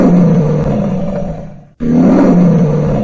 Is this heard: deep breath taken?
no